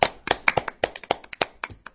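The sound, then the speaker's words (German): Hands clapping in a quick, fairly even run of many sharp, crisp claps at moderate loudness, with no talking over them. “Nicht zu viel klatschen.”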